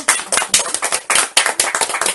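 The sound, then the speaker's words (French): A church audience applauds during a worship service: many hands clap in a steady, rapid, loud rhythm, with no voices over it. “Celui qui aime Jésus applaudit. Celui qui n'aime pas Jésus n'applaudit pas. Celui qui aime Jésus applaudit bien.”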